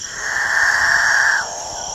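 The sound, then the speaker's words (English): Male capuchin birds call in a dawn chorus in the Guyanan jungle: one sustained, drone-like note holds for about a second and a half and then cuts off, over a steady high whine that continues throughout. “It's the dawn chorus of male capuchin birds”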